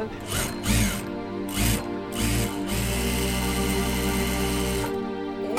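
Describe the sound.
A special sewing machine, needed so the fabric does not pucker or pull, runs with a loud mechanical whir and rattle: a few short surges at first, then a steady continuous run that eases off near the end.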